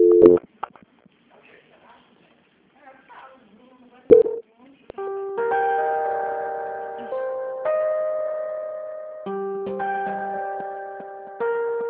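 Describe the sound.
Telephone line during a call transfer to a quality control department: a few brief clicks, then a steady electronic melody of sustained, stepped notes that plays on its own.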